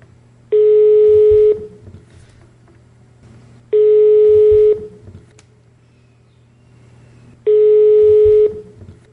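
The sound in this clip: Ringback tone of an outgoing telephone call: three steady electronic beeps, each lasting about a second and evenly spaced by short silences, over a faint low hum.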